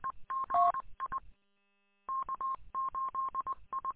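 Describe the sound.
Telephone keypad touch-tones sound during a phone call: short, even beeps in quick bursts, a brief silence, then a longer run of many rapid beeps, loud and alone with no talk.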